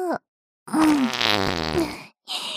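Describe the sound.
A long, buzzing fart lasting over a second, with a short faint noise just before it and another just after.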